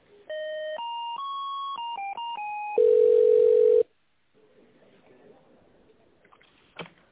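Telephone line tones while a call is transferred: a short series of stepped electronic beeps changing in pitch, then a single steady tone held for about a second, followed by near silence with faint line noise and a small click.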